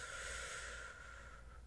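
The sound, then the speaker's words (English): A slow meditation breath: one long, steady, airy rush of air that holds an even level and then eases slightly softer toward the end, with no talk over it. “Or you could do a meditation breath, like.”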